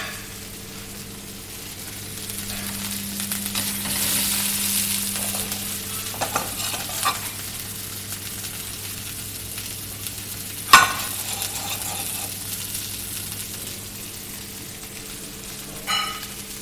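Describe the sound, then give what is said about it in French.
Meat sizzles in butter with garlic in a pan over moderate heat. A steady frying hiss runs throughout beneath a low hum, broken by occasional stirring scrapes and a couple of sharp utensil knocks, one loud near the middle and another near the end. “On va pouvoir ajouter le beurre. Avec la viande. D'accord à pas trop de température, sinon il va, le beurre va commencer à brûler.”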